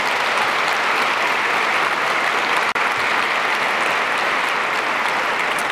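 An audience at a spiritist congress in Lisbon claps together in dense, steady applause that holds an even loudness throughout, broken only by one very brief dropout midway.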